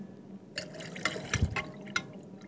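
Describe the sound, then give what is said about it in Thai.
Water is poured into a mixture as the second part of a preparation, giving a soft, liquid trickle with a few brief splashy accents over a low background. “เดี๋ยวเราก็จะเติม ส่วนที่สอง ลงไปนะคะ น้ำ อาจารย์เติมลงมาได”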